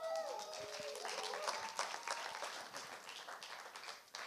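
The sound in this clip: Audience applause greets a speaker at an evening gathering: a soft, continuous wash of clapping that opens with a brief vocal sound, holds steady, then thins slightly near the end.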